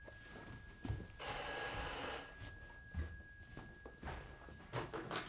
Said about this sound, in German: Das Telefon läutet.